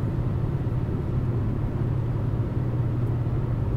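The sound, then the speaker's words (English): A car driving along a road late at night gives a steady, low engine and road rumble. The drone stays even and unbroken throughout, with no voices. “it's a late night drive.”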